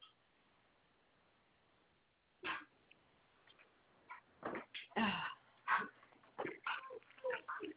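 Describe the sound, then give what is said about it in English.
Dogs yipping and whimpering indoors: a quiet opening, then many short, irregular yelps and barks of varying pitch, fairly faint. “Oh, rotten dogs. Oh, rotten dogs.”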